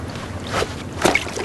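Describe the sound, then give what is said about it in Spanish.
Soft wet splashes of a cardigan being thrown into river water from the bank, on a forest riverside; brief muffled bursts rise above a low, steady background noise. “Se pone en cuclillas a orilla del río y arroja al agua su Rebeca.”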